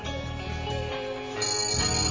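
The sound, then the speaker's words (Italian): A telephone ringtone plays as a continuous, dense electronic melody that fills the whole clip at a fairly loud, steady level. Partway through it becomes slightly brighter, and no voices are heard. “Se c'è bisogno c'è Loredana Morandi che telefona.”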